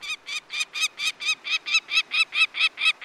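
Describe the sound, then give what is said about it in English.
A peregrine falcon, a streamlined pale gray bird migrating south in September from Arctic nesting grounds, calls in flight with a long, rapid, evenly spaced series of loud, harsh, high cackling notes and nothing else around it. “In September, a streamlined peregrine falcon calls as it wings its way south from its Arctic nesting grounds.”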